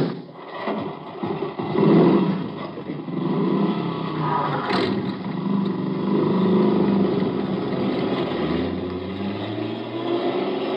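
A car engine as the vehicle drives off, a steady, fairly loud rumbling drone that swells early and near the end carries a low tone rising in pitch.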